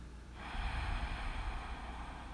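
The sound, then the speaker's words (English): Deep breath taken slowly, a soft breathy inhale that swells into a sustained airy rush, quiet and alone with no talking. “Taking that deep breath.”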